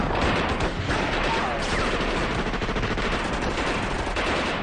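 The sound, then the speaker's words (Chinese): Rapid gunfire fills a battle scene as bullets are shot in dense, overlapping bursts, loud and continuous throughout with no clear gaps between shots. “有子弹从这边射过来”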